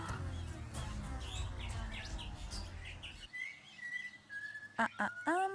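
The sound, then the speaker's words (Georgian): Pied currawongs (striped crows) calling in a wombat forest: clear, ringing whistled notes follow a stretch of low rumbling noise. The calls end in a few sharp, loud chirps. “ეს თუთი ყუშები, ზოლიანი ყვავები.”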